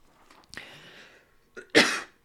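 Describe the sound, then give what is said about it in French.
A person coughs and clears their throat in two short, harsh bursts, the second louder and longer, with faint breathy noise between them. “Excusez-moi, j'ai un chat dans la gorge.”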